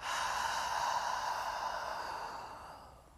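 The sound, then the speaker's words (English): A long, slow exhale during a guided breathing exercise: one breathy rush of air that stays steady for a few seconds, then softens and fades out. No talking. “Again, breathing in and out.”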